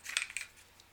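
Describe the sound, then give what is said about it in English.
Two sharp, quiet metallic clicks come from a concealed-carry handgun being snapped back together, followed by a fainter tick. “Sometimes it doesn't want to go back together because, there we go, click. Click, yo. Click, click.”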